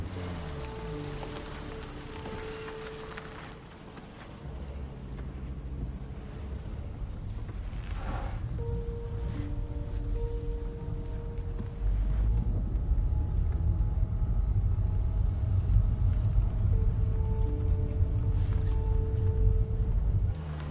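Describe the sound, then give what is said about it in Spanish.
Car starting and pulling slowly away from a motel: a low engine rumble that thickens and grows louder partway through, then holds steady as the vehicle moves off. “Arranca el coche y se pone el cinturón. Se aleja del motel lentamente mientras mira por el retrovisor al coche de la Guardia Civil que permanece inmóvil.”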